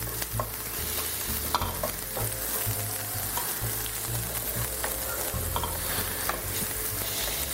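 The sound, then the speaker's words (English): Onions fry in a pan with a continuous crackling sizzle, broken by a few sharper scrapes and clicks of stirring. No one speaks. “the onions look like they are getting to the point. I'm going to turn the heat down to very low so that I don't burn them”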